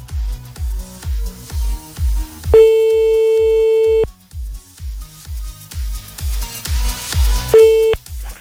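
A telephone tone sounds after the caller hangs up. A steady, clear beep holds for about a second and a half, then returns more briefly later, over a rhythmic low thumping beat.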